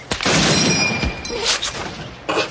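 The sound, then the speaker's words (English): Rifle gunshot in a video game: a loud, harsh blast with a noisy, sustained tail, then another sharp burst near the end. “Yeah, nothing like a rifle bullet to the head to show that you care.”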